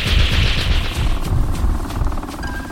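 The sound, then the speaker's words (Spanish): Gunfire sound effect for a surprise attack in a radio drama, set at a rocky island cave used as a hangar: many rapid, booming shots in a dense, continuous volley. “Descubriendo que el criminal va a abandonarlos escapando de la isla, atacan por sorpresa haciendo funcionar sus armas.”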